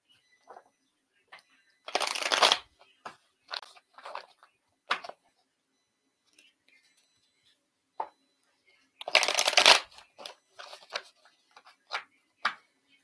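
Tarot cards are shuffled for a card reading, with two longer rasping riffle bursts separated by scattered short flicks and taps of cards, each sharp and brief against near silence.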